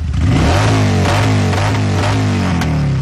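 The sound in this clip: Motorcycle engines rev loudly and continuously during a charity ride of more than a hundred riders delivering gifts to a children's hospice. Repeated rising and falling revs pile over a deep, rumbling idle, with no talk.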